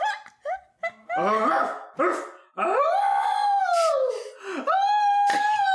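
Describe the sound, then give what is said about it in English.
A startled wolf jumps to its feet and barks: a few sharp yips and barks give way to long, wavering howls that slide downward in pitch, loud and without speech. “And you see the wolf below you start to startle, and eventually it hops up to its feet very quickly and looks up at you. And you hear...”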